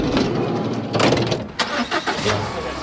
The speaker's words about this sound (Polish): Ja jadę do Nidzicy.